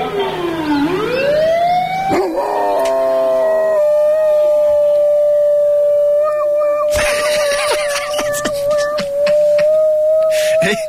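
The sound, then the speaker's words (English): A dog howls in imitation of a passing fire engine siren, a rising wail that settles into one long, steady, loud tone held for several seconds, with sharp clattering bursts in the later part and no talk. “So this is a dog that thinks it's a fire engine. The fire engine goes past. So the fire engine starts and the dog's looking at it going, all right. I can do that.”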